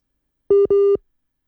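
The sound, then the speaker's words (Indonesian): A phone line tone sounds while a caller is being reconnected: two short, steady electronic beeps at the same pitch, the second slightly longer, then silence. “Waduh. Lagi menghubungkan ulang ya pendengarnya. Mohon maaf ditunggu.”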